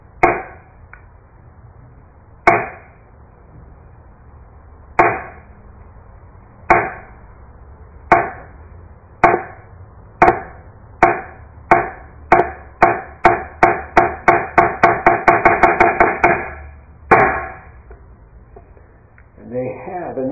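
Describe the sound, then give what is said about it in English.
Sharp wooden knocks from a thick hanging han board struck to call practice in Soto Zen. Widely spaced blows quicken steadily into a rapid roll, followed by one last separate strike. “they have a big piece of wood, kind of about this big. It's thick, about that thick, about this big. And then they hit the bell to call you to practice. They hit the han is what this piece of wood is called.”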